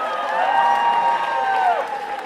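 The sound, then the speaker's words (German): An audience applauds and cheers for the hosts of a charity music marathon at the Roxy. Sustained whooping voices ride over continuous clapping at a steady, fairly loud level. “Applaus für die Moderatoren!”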